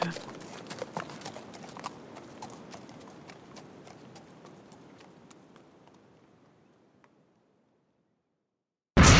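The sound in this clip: Horse hooves trotting off: a rhythmic clip-clop that steadily grows quieter until it fades into silence, followed by a sudden loud burst at the very end.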